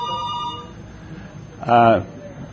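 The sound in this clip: A telephone rings once in a short, loud burst of bright tone, heard after stretches of talking.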